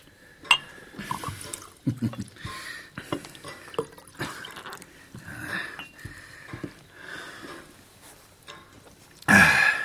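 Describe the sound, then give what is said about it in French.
Liquid gurgles into a drinking glass in uneven trickling bursts, ending with a brief, louder splash. “Remplissez-moi le verre. Oui, là.”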